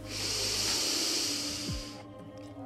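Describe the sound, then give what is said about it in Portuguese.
A slow exhale through the nose during a breathing exercise, a steady, airy hiss lasting about two seconds before it stops and leaves a quieter background. “e vai soltar devagar pelo nariz”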